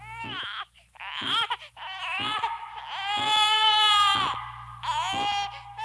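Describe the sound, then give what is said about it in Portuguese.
An infant cries loudly in repeated wailing bursts, high and strained, each broken by a short gasp, with the longest wail in the middle. “Quem sabe vocês têm um irmãozinho ou irmãzinha que chora assim.”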